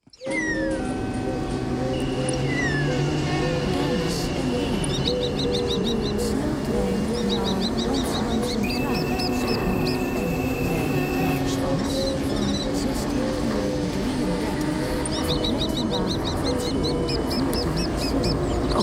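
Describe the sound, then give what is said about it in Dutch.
Birds chirping and twittering at a train station, with quick high calls coming in repeated bursts over a dense, constant background hum of the station. “Wat hoor je hier? Nou, ik hoor vogels.”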